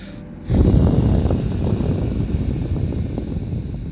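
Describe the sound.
Slow mindful breathing close to the microphone: after a short quiet moment a soft, breathy rush starts abruptly and continues steadily for over three seconds.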